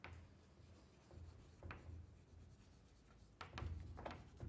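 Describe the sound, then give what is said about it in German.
Pen writing on paper or a board during a mathematics lecture: faint, scratchy strokes in an uneven rhythm, with short bursts and pauses and no talk. “Ja, schreibe ich nochmal hin.”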